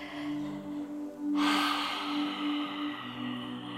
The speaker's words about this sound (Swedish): Och kom tillbaka hit till rummet igen genom att ta några djupa andetag.